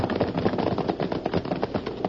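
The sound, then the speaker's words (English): Rapid gunfire in a Western radio drama: many quick, sharp shots rattle in a dense, continuous stream, loud and alone with no voices over them. “That last shot hit home.”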